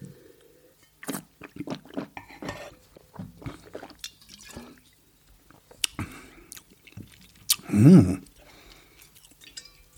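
A taster sips Brut Nature zero-dosage sparkling wine, with scattered faint mouth clicks and small liquid sounds followed by a louder slurp near the end.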